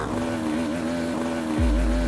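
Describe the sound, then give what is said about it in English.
Two-stroke motorbike engine running rough with its front exhaust pipe torn out of the barrel and little power. It gives a steady buzzing drone, then a deep, loud low rumble swells in near the end. “Not even sure if this bike will make it. Can't even change gear.”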